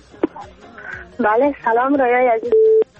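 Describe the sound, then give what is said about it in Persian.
A brief, loud, steady telephone line tone sounds after a caller's line drops on a Persian-language call-in programme. It follows a stretch of talking and cuts off after a fraction of a second. “متاسفانه که تماس حنیف جان قطع شد، من هم میفهمم که چی مشکل است، بازم تماس داریم.”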